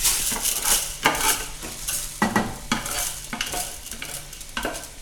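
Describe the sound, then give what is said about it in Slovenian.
Rice is added to a hot pan and toasted for risotto, sizzling steadily while a utensil scrapes and stirs it in many sharp, irregular strokes against the pan. “Še v drugo ponev dodam riž.”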